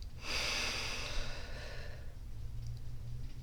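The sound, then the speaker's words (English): A deep breath is taken in through the nose and let out through the mouth, one long, airy, soft rush of air lasting about two seconds before it fades to a low hush. “I would like for you to take a deep breath in through your nose and out through your mouth.”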